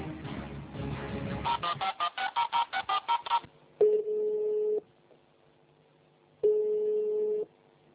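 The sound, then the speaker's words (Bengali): A telephone call being dialled: a quick, even run of about ten keypad tones, then two long steady ringing tones separated by a silent gap. “রুম্পার সাথে আমরা এই মুহূর্তে ফোনে যোগাযোগ করছি, দেখি রুম্পা কি বলে।”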